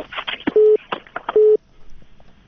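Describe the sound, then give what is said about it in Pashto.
After a telephone call is cut off, two steady mid-pitched line-tone beeps sound, each about a quarter second long, interleaved with talking voices. Near silence follows. “متاسفانه د دوی تلیفون قطع شو”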